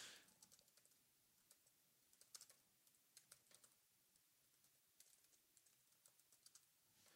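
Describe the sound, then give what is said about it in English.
Typing on a computer keyboard, many soft keystrokes in an uneven patter, faint and alone. “I had to type this up on my computer.”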